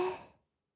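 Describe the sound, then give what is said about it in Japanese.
A single soft breath out during a breathing exercise, a gentle, breathy rush that fades away within about half a second. “吐いてって言ったら、息を吐いてね。いくよ。吸って、吐いて、”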